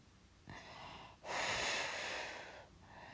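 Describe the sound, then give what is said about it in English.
A person breathing in and out slowly, being guided to calm down after a bad dream: a soft, airy breath followed by a longer, louder and rougher one, then a faint start of another breath, with no talking. “Breathe in. And then breathe out.”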